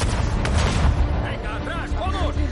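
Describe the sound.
Heavy gunshots ring out during an action scene in a science-fiction film as an armoured vehicle crosses a dip in the terrain and closes in. A few booming shots land over a dense, loud wash of noise.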